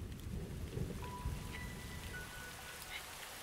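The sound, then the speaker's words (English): Rain falling: a faint, steady hiss of drops without pause or clear individual events. “listening to the quiet. And then the rain.”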